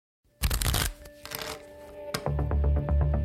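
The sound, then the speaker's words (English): A deck of playing cards printed with unsolved cases being shuffled: loud, dense riffling and crackling bursts that ease off, then return as rapid flicking snaps with a steady tonal layer underneath. “This is not your ordinary deck of playing cards.”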